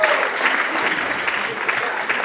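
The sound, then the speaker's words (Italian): Audience applause at an auction after a winning bid: dense, loud clapping that holds steady for the whole stretch with no clear break. “Un applauso per Luigi.”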